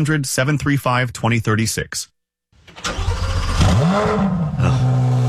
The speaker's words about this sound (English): I'm driving a 2026 Corvette Stingray.